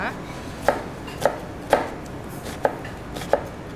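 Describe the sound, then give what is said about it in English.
A knife dices an onion in five crisp chops with short pauses between them, slightly uneven in rhythm, with no talk over them. “Anyway, it's going to be hard to talk, but I'm just going to cut this down. Maybe I'll try dicing this one.”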